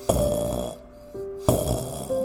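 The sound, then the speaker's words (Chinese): Faint snoring from a small story character sleeping heavily after overeating, found inside a flour sack. A couple of soft, drawn-out snoring breaths with a steady tonal drone, separated by a brief quieter gap. “正当他们担心的时候，传来了一阵很轻微的打呼声。”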